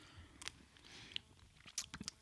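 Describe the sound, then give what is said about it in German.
Someone eats an imitation of a caramel-coffee coloured ice cream, with faint wet chewing and a few sharper bites and crunches spread unevenly, no talking. “wir essen ja gerade den Nachbau des braunen Bärs. Der braune Bär ist ein äh, Eis”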